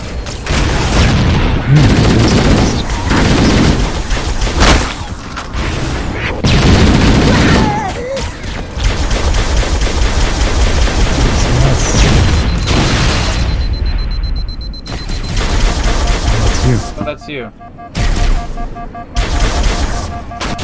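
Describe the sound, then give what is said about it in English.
Video game gunfire aimed at a tank: loud bursts of rapid shooting mixed with heavy booming blasts, coming in dense stretches broken by a few abrupt silent gaps toward the end. “Are you shooting this thing? I was shooting at this tank, which apparently is now gone.”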